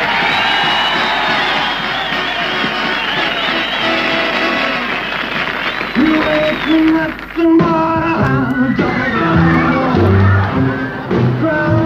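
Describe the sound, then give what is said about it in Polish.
A crowd welcoming a singer erupts in loud cheering, shrieks and whoops. Brassy band music cuts in partway through while the excited screaming carries on underneath. “Oto nowa sensacja muzyczna Ameryki. Oto on, proszę o brawa.”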